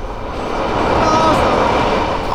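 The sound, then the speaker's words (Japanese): An express train passing through a station platform makes a steady, loud rumbling roar with metallic wheel noise that builds slightly and holds throughout. “まもなく、一番線の急行列車が通過します。白線の内側までお下がりください。 電車が通過します。お下がりください。”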